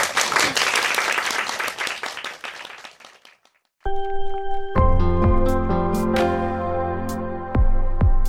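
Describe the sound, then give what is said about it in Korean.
An audience applauds before a live song performance: dense, steady clapping for about three and a half seconds that thins and fades out, followed by the start of music. “박수로 청해 듣겠습니다”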